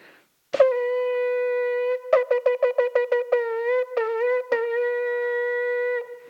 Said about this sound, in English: during this time we have a ram's horn and we blow the shofar.